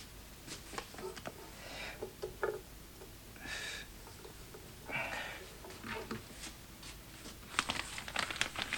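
Faint scratching of a pencil writing capital letters on the white margin of a newspaper, with short irregular strokes and small rustles spread across the quiet stretch.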